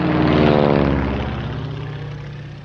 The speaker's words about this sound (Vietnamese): Khoảng non trưa, địch lại tiếp tục cho trực thăng đổ quân xuống.